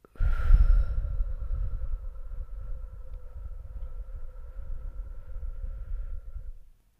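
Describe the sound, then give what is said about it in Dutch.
Slow, deep breathing through the nose as a stress-calming exercise: a long, soft, airy rush that draws in and then lets all the air out, lasting several seconds. A faint, steady hum sits underneath, and no one talks. “Maar wat je dus doet, is je ademt in. Dan adem je nog dieper in. En dan helemaal uit.”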